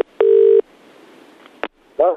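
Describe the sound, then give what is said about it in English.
A telephone call dialled to a personal hotline: a steady dial tone, then a quiet pause, a sharp click, and a short burst of sound at the end. “we made a call to Dev's personal hotline this week. You know, he's got Dev Direct. He's been answering the phone all week. You can have a chat with him. We thought we'd ring.”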